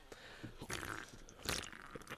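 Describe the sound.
Faint handling clicks and taps on a can of light ice beer, then a sharp crack with a short burst of hiss as it is opened, followed by a few more quiet clicks.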